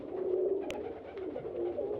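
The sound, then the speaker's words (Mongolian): Pigeon cooing while being handled: soft, low, throaty coos running in a gentle wavering rhythm, with a few faint clicks and rustles. “Тагтааг арай царай гаргаж авчирлаа.”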